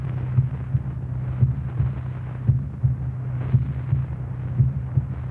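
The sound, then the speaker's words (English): A heartbeat heard through a stethoscope: regular lub-dub pairs of soft, low thumps, about five beats in a steady rhythm over a faint hum, with no talk. “Heart sounds normal now.”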